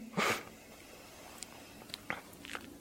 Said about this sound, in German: Links einatmen.